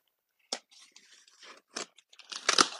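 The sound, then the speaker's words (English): Packing tape on a big, heavy box is slit with a Swiss Army Tinker knife, giving several crackly tearing and crunching bursts with short gaps between them. The bursts grow louder and denser in a final rip at the end. “Let's open it up here, see what's in there. Hopefully not destroying anything as I cut the tape with the Swiss Army Tinker model knife.”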